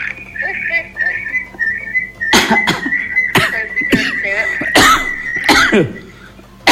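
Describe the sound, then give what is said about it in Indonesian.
Harsh coughing from a person: a series of sharp, loud bursts, some in quick pairs, over a steady high whistling tone that carries on throughout. “Nan batuk. Heuh, batuk.”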